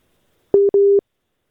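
Telephone busy tone after a dropped call: two short, steady beeps at one mid pitch, the second slightly longer, alone against silence.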